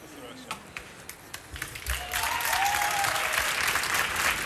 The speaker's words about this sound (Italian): Non so se dalla radio si può percepire, però ogni singolo applauso è incredibile.